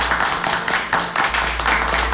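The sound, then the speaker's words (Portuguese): Brief clapping to mark a daughter's birthday: a short run of quick, fairly loud claps in an uneven rhythm over a low steady hum. “Oh! Dá os aplausos.”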